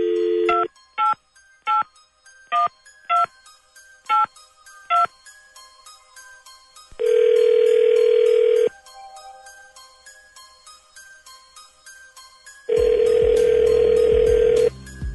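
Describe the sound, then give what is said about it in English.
A telephone number is dialled: a quick series of about eight short, evenly spaced touch-tone beeps, followed by two long, loud ringback tones separated by a quiet gap, with no voices. “Okay, well, let's find out. Dialing at random.”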